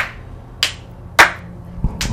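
Sharp hand claps serve as an editing marker in a studio: three bright, isolated claps spaced apart, each short and snappy, with no talk around them.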